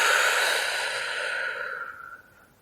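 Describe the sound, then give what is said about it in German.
A long group exhale at the end of a guided relaxation breathing exercise: a soft, airy hiss that holds steady for about two seconds, then fades out, with no talk. “Und noch ein letztes Mal gemeinsam einatmen, die Luft kurz anhalten und gemeinsam ausatmen.”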